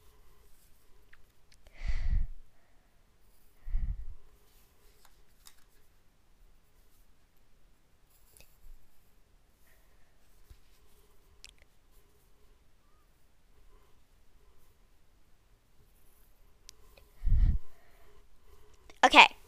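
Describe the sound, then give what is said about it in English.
A pen drawing a box on paper gives faint, intermittent scratchy strokes over near-silence, broken by a few soft low thumps. “But first, draw another box.”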